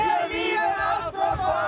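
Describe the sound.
Fans cheer and shout at an Austropop concert, their many voices blending into a loud, sustained roar with drawn-out tones.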